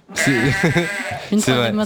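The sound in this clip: A person imitates a goat, giving a few loud, wavering, nasal bleats with a shaky, trembling pitch, in two bursts separated by a brief gap.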